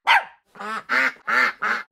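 A platypus calling: five short, harsh, nasal bursts, each loud and separated by brief gaps, with no voices present.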